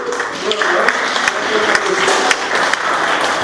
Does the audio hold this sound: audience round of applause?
yes